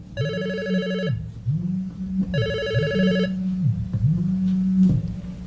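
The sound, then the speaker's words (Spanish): A telephone rings with an incoming call: two bright, buzzing bursts of electronic ringing, each lasting about a second and separated by a pause, over a lower wavering tone that continues throughout. “A ver, vamos a ver, tenemos otro llamado.”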